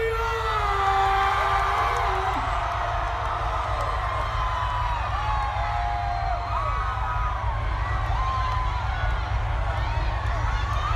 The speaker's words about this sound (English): Make some noise